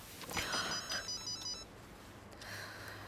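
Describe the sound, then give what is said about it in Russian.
A mobile phone rings with a short electronic ringtone: a bright, repeating tonal melody that plays for about a second and then cuts off, leaving low background noise. “Девушке звонит мобильный.”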